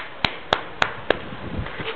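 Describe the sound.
Four sharp hand claps in a steady, evenly spaced rhythm, crisp and distinct, followed by faint low rumbling background noise with no further claps.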